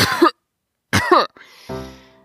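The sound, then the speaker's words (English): A raspy-voiced gnome in a children's story clears his throat with two harsh, rough coughing bursts, followed by a lower, voiced rumbling tail. “excuse me. Had something stuck in my throat.”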